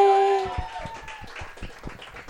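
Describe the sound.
Audience applause greeting a performer coming on stage: thin, rhythmic clapping with sharp, fairly even hand claps that follow a brief held tone at the start.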